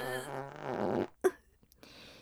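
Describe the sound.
A voice imitates a fart: a woman playing a nun blows a long buzzing raspberry, then gives one short sharp burst, followed by fainter sputters.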